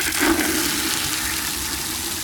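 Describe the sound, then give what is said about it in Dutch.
Water sprayed onto a fire makes a steady rushing hiss, even and unbroken, with a slightly stronger surge near the start; no one speaks. “De pelikanen halen nog meer water. Dat spuit Olaf weer op het vuur.”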